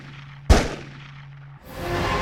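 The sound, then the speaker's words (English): A single sharp gunshot aimed at a team, a loud sudden crack that decays quickly and is followed by a steady tone and then a rising wash of noise. “Who is shooting at the team and why?”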